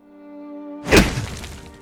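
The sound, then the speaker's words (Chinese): A fist smashes once into an alley wall, a single heavy crashing thud with a rumbling, rattling decay, preceded by a sustained tonal drone. “柴荣一拳砸在巷子的墙壁上。”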